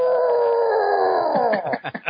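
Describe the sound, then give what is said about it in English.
A man's voice imitates Ted Cassidy's roar for Godzilla with a long, strained howling tone. The pitch sinks slightly, then breaks into short, choppy bursts near the end. “What killed me is they didn't get the iconic roar for Godzilla. They had Ted Kasty, who played Lurch on the Addams Family, going,”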